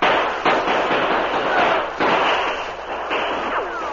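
Gunfire in a shootout between outlaws and a posse on a trail, with horses nearby: a few heavy, dull reports break through a dense, continuous rush of loud noise.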